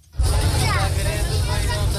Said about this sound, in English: Driving through Kabul, we pass a school.